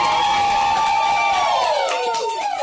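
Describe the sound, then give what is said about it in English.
About eight friends cheer and whoop together in a hotel room in Colorado. The loud, sustained whooping carries one prominent voice whose pitch falls toward the end. “That sounds like we have a live audience, but it's really just 8 of our friends.”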